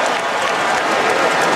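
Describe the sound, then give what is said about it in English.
An arena crowd of about 19,000 people at a professional basketball game exhales together in relief, producing a steady, loud, breathy crowd wash with a faint murmur running through it. “what you heard right now was about 19,000 people exhaling.”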